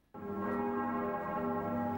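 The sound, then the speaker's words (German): Church bells ringing together in Paris: nine new bells with a cathedral's main bell, sounding for the first time on the eve of Palm Sunday. They strike suddenly, then hold a loud, dense, sustained hum of overlapping tones. “Gemeinsam mit der Hauptglocke von Notre-Dame haben 9 neue Glocken heute am Vorabend des Palmsonntags zum ersten Mal geläutet.”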